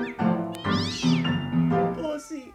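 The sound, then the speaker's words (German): A cat meows several times, the calls drawn out and wavering in pitch, fairly loud and close together with no other voices. “Böse Katze, ganz böse Katze.”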